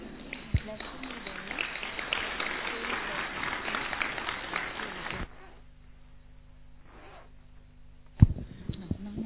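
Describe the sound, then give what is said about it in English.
An audience claps in a busy, mixed burst with voices, lasting about five seconds before cutting off abruptly into a quiet low hum. “So big clap for those.”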